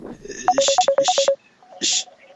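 Electronic tones of a Skype call ringing: a rapid run of short, bright beeps, then a pause and one longer tone.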